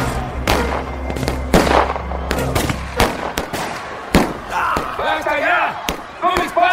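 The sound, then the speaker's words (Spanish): Several sharp gunshots fired into the air crack out irregularly amid loud shouting voices, the bursts coming in clusters over a tense, noisy crowd. “¡Solo disparos al aire!”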